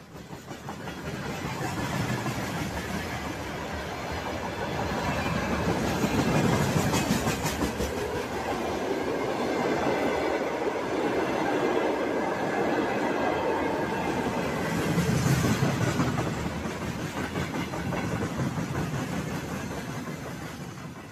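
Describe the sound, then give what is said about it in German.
Freight train wagons carrying tanks, howitzers and rocket launchers roll past in a steady, loud rumble with rhythmic clickety-clack from the wheels over the rails, continuing without a break. “Das sind Güterwaggons, auf denen Panzer, Haubitzen, Raketenwerfer und allerlei militärisches Gerät aus Zentralrussland und Sibirien”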